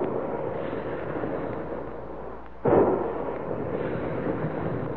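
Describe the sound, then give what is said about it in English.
A single heavy boom as big guns fire, with a sudden sharp onset and then a lingering, muffled rumble over steady background hiss. “Big guns, hear them?”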